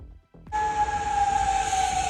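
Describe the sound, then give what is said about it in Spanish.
An air raid warning siren sounds in the Middle East. After a brief gap, one loud, sustained, steady wailing tone holds its pitch and dips slightly at the end. “Las sirenas vuelven a sonar en Oriente Próximo, pero esto no es ni Israel ni Irán. Las alarmas resuenan en países como Bahrein, Jordania, Kuwait”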